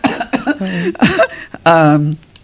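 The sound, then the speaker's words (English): A person coughing: a few short, harsh bursts followed by voiced, throaty sounds, loud and close. “sorry, I'm gonna cough.”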